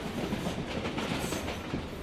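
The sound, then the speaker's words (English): Steady rumble and rattle of a train carriage running along the rails on a commuter line in India. The dense, even noise continues throughout with no voices. “So I'm back on a train heading back to Churchgate, back to the West End Hotel.”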